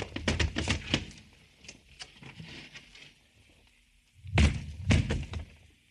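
A car trunk is opened with metallic thunks and rattles: a cluster of clunks at the start, a quieter stretch, then a couple of heavier thuds near the end.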